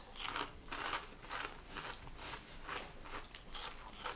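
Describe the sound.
Crunchy, creamy buttermilk flavored snacks being bitten and chewed, a quick series of sharp, crackling crunches in an uneven rhythm, fairly faint, with no talking.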